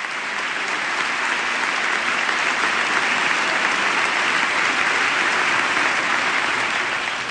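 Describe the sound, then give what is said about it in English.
Applause fills the congressional chamber during a presidential address: dense, steady clapping that holds at an even loudness throughout. “She's standing to receive the applause of the chamber.”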